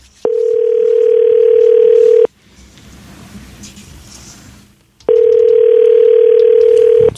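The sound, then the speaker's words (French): A telephone dial tone plays while a call is placed: two loud, steady, unbroken tones of about two seconds each, separated by a quieter stretch of low hiss. “On l'appelle.”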